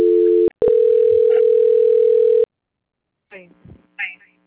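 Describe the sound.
A telephone line tone sounds during a call transfer: a short burst, a brief break, then about two seconds of steady, even tone. Silence follows, then a voice speaks briefly.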